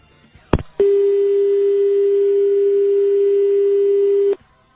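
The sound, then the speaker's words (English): A telephone dial tone while a call is being dialed: a brief click and then a single steady, loud tone that holds for about three and a half seconds before cutting off abruptly. “Dialing.”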